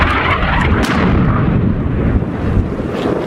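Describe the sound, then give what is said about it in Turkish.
Artillery fire from Saudi-backed Yemeni army units destroying Houthi military vehicles on the battlefront: a dense, loud, continuous roaring rumble with no clearly separate blasts, steady across the whole stretch. “Suudi destekli Yemen ordusu topçu birliklerin Husilere ait askeri araçları imha ettiği görüntüleri paylaştı.”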